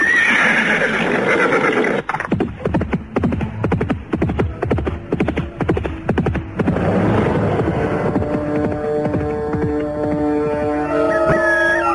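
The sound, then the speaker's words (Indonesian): A horse neighs, and its hooves follow as many loud, quick, rhythmic clopping strikes that run for several seconds with no talk over them. “Naiklah ke kuda itu dan pulang.”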